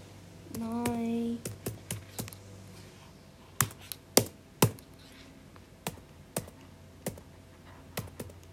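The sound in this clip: Fingers type on a laptop keyboard in irregular bursts of sharp clicks and taps, with a short voiced sound just before the keystrokes begin.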